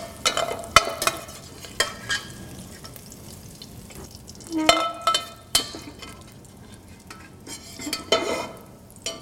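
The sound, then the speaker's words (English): Green peppers, onions and celery sautéing in bacon fat in a pan for Cajun red beans and rice, a soft steady sizzle broken by many sharp scrapes and clacks of stirring. “I'm gonna make use of the fond, the flavor on the bottom of the pan, and the fat to saute our trilogy of vegetables, our green peppers, our onions, and our celery”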